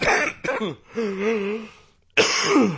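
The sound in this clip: A person still getting over a cold clears their throat and coughs a few times. The short, raspy bursts are broken by a voiced, groaning hum and a brief pause.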